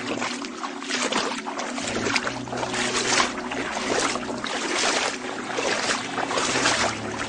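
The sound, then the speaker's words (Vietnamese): Feet wading through water at a cave entrance make a steady, rushing wash of splashing and sloshing that stays fairly even in loudness throughout, with no voices. “Dục Chu định phản bác nhưng chợt nghe thấy tiếng lội nước ở phía cửa hang”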